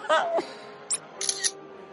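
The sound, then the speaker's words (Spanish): Short, bright shutter clicks from a smartphone camera taking a selfie come in a quick few, faint and crisp, after a brief voice at the start. “¡Pero si tiene cámara y saca fotos! ¡Vamos a sacarnos un selfies de esos que decís y las podemos subir al Fotolog!”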